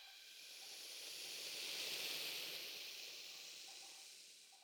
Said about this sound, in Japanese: 泡がはじけていく音そのものも相当心地よく感じられるはずです